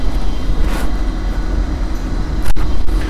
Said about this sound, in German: Okay, jetzt fährt der ICE schon ein, der wird hier wohl eingesetzt.